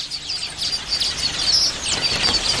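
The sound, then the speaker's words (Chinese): High, scattered chirps and tweets from a male weaver bird building its nest, repeating in quick bursts over a faint, steady background hiss. “这只雄性黑额知雀需要大约5天的时间才能将鸟巢搭建好”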